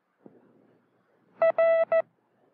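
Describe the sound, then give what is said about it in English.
Morse code tones: a steady, mid-pitched beep with buzzy overtones keys out a short, a long and a short element in quick succession, heard alone after a faint click. “the pattern of dits and das and spaces gives a very special sound to each of the 36 characters in our code”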